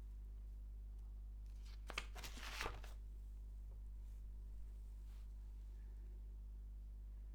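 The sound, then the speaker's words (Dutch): Rustle of a page being turned in a paper script: one brief, faint crinkly rustle of paper, heard alone against a quiet steady hum. “Je hoort ook dat ik de bladzijde omsla, want dit heet een script wat ik nu met je aan het doornemen ben.”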